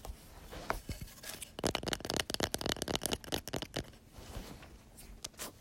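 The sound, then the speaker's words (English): Fingers tap on a wooden object from an agriculture class, making many quick, light, dry clicks in irregular bursts, with soft scratchy handling noise in between. Faint, with no talking. “Then we have another wooden thing from Ag.”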